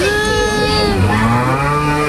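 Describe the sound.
A calf moos in one long, loud, sustained call that fills the whole moment and dips slightly in pitch, with no voices over it.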